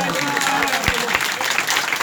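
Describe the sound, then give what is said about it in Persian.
An audience claps, dense and steady from start to finish, with a few voices mixed in among the clapping. “به افتخار همه نوکرهای دست خوشگل بزنیم”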